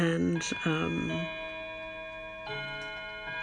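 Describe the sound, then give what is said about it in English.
A clock chimes the hour of seven o'clock, with bright sustained bell tones that ring on and overlap, and a fresh strike rising out of the ringing partway through. Tick-like sounds are faintly present, and a voice may be heard near the start. “and now, as you can hear, it is 7 o'clock.”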